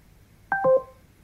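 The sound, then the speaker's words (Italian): Alexa's call hang-up tone, a brief, clear two-note electronic chime with the second note lower than the first, standing alone against near silence. “Alexa, riattacca.”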